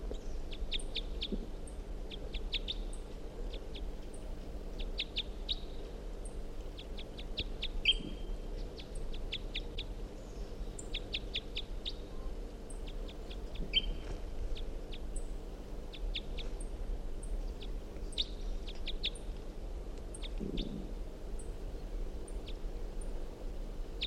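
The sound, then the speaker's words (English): A wild bird calls repeatedly in many short bursts of high, sharp notes, faint over a steady low background hum. “So we're going 7:45, wild bird here.”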